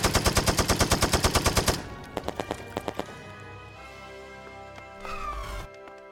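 Automatic gunfire in a sci-fi battle as attackers retreat: a long, rapid, evenly spaced burst of loud shots, then a shorter burst after a brief pause.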